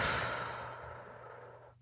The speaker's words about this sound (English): Taking a notice to bring the breath in through the nose, out through the mouth,